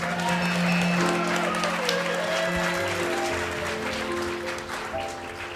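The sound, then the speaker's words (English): An audience applauds to welcome a guest trumpet player onto a live music show. The clapping is dense and steady, with faint sustained tones underneath, and it eases slightly toward the end. “Put your hands together for our special guest, Stan Kessler.”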